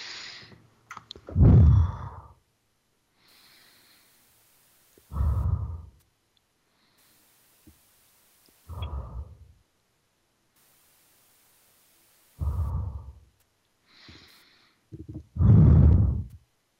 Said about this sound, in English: And now I'm going to start breathing deeply while I feel it.